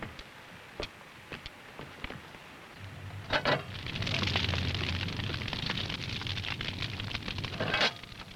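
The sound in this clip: A wood fire burns in a bread oven: sharp crackles and pops come at first, then a steady roaring whoosh of flame builds and continues with more bursts of popping.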